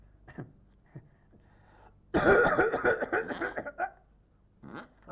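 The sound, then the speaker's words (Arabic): A person coughing and breathing during a medical exam: a few short breaths, then a long, rough stretch of repeated coughs and heavy exhalations, ending with a softer breath. “اتنفس اي نعم اتنفس وسعل. راني متوضية هذه تنفس وسعل. نفس تنفس وسعل.”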